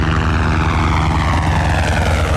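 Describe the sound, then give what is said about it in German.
A firefighting helicopter on a steep-slope forest-fire training exercise flies overhead with a loud, steady engine roar and a low thudding rotor pulse throughout, with no voices. “Der Helikopter donnert gerade über Eisenköpfe”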